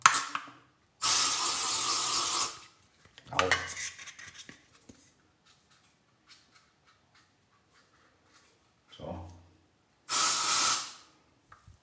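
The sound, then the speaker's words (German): Deodorant spraying in two steady, hissing bursts, the first longer than the second, with brief clattering and rattling between them. “Das war ein anderes Deo jetzt, aber noch ein bisschen nach.”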